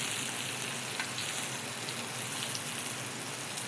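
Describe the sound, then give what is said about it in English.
Sweet potatoes sizzle as they fry in a pan, a steady, even crackling hiss that runs throughout with no voices. “So they've been going for about a minute now. I'm gonna take a spatula and just kind of rotate them around, kind of flip them over.”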